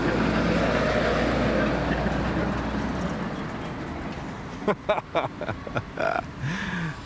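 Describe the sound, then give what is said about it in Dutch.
A vehicle drives past with a broad, rushing roar that slowly fades over about four seconds, leaving a few faint scattered sounds afterwards. “Wacht even totdat ja. die, het voertuig voorbij is.”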